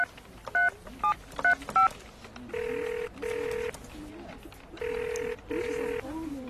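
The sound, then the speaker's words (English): Telephone keypad dialing tones for a number that turns out to be out of service: four quick short beeps, then four longer steady tones in two pairs, clear and alone. “The number you have dialed is not in service. Let's try the next one.”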